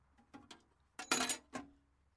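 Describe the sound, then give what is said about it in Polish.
Standard wrenches from a car tool set are tossed in with sharp metallic clinks: a few light jangling hits, then one louder, longer rattling clatter in the middle and a last clink, with no talk. “To standardowe klucze, więc ci wrzucam.”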